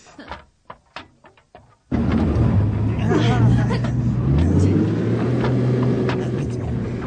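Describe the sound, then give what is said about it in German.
A boat engine revving at full power to free propellers stuck in sand: a sudden loud, steady roar with a deep low rumble starts after brief talk and holds at a constant level to the end. “Ich werde dem Motor einmal kurz volle Energie geben. Dann werden uns die Schrauben schon freibuddeln.”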